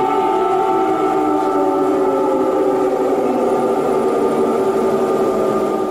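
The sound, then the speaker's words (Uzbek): An air raid warning siren in Ukraine, a loud, steady droning wail with layered tones that holds without a break for the full six seconds. “Yana bir narsa, havo hujumidan ogohlantiruvchi sirenalar ovozi.”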